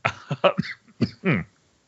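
Throat clearing by one person: a few short, rough bursts, ending in a longer, harsh, voiced rasp, with no talk over it.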